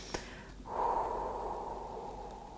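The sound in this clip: Deep breathing as a relaxation exercise, in through the nose and slowly out through the mouth: one long, soft, airy rush of breath lasting about two seconds, faint and alone.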